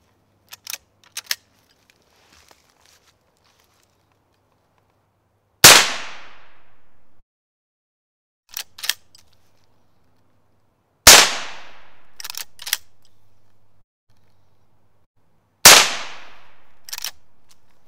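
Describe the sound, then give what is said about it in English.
Gunshots from a .22 Magnum gun loaded with heavier-than-normal rounds, fired as practice shots at a target about 23 yards away: three loud, sharp cracks with short ringing tails, spaced by quiet gaps with a few small mechanical clicks. “They're a little bit heavier than a normal 22 Magnum round, but they shoot really well out of my gun and they should give us plenty of penetration on a big hog. I've got a target about 23 yards away. I'm just gonna take a couple of quick practice shots.”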